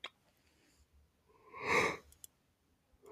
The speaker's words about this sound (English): what's with me with yawning? What the hell?